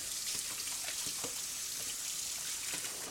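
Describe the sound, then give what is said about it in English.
Running tap water while hamburger meat is washed off hands, a steady, even hiss of flowing water with faint splashes and no voices. “First, I got to wash the hamburger off my hands.”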